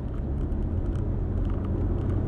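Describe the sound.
Steady car interior rumble from a car driving with sport mode not yet engaged: a dense, even low engine and road drone that holds at one level through the short stretch, with no clear revving.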